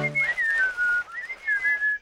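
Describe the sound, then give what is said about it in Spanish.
A person whistles a wavering tune while climbing a hill sitting backwards, with clear mid-high notes gliding down and then back up in short phrases separated by brief breaths. “están ahora silbando y subiendo sentados una colina.”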